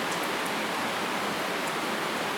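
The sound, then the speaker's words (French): Rain falling as a steady, dense hiss that stays even and unbroken throughout, with no clear separate drops standing out. “Alors, je vous admets que la pluie, c'est distrayant quand même. C'est distrayant pour tout le monde.”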